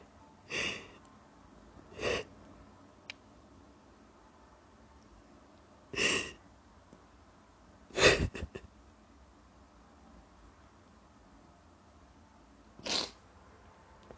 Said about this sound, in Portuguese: Desculpa vocês ouvirem isso. É... Não queria, eu realmente não queria ter chorado na frente do microfone.